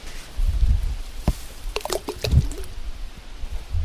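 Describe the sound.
Plum-like fruit plopping from a tree into lake water, dropped from a boat under a tree growing on the bank; a few soft, irregular plops and drips stand out against a low, murky background.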